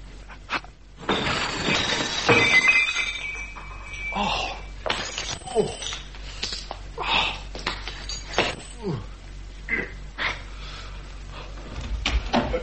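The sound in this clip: Plates and crockery crash and shatter as a person falls onto a laden table after jumping in through a window. A loud, jangling crash comes early, followed by quieter clattering and scuffling movement.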